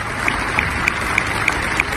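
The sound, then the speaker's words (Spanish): Applause rings out at the European Parliament as an ovation for its president David Sassoli: a dense, steady wash of clapping with small regular accents, and no voices over it. “las instituciones comunitarias despidieron ayer así, con esta ovación, al presidente del Parlamento, David Sassoli”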